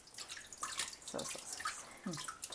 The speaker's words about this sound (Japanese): じゃあまずは 一回入れましょうか、 はい、 お水を入れて